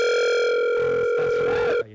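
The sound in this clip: A telephone ringing tone sounds while a call is being dialed. It is one steady, continuous electronic tone that holds at an even level for almost two seconds and then cuts off abruptly.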